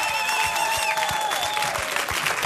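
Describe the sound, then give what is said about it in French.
Audience ovation at a tribute, honoring a longtime report editor and travel companion: a dense, steady wash of clapping that holds at an even, fairly loud level for the whole stretch. “Mesdames et messieurs, une ovation pour monsieur François Porcheron.”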